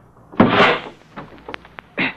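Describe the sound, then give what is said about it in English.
A car door being forced open: a rough rasping burst, then a few sharp clicks, then a final clunk, fairly quiet with no talk over it. “Just get this door open.”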